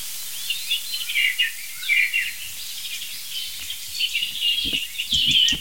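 A robin sings in a series of short, high chirps and thin trills that come in separate bursts with brief pauses between them, moderately loud and without voices.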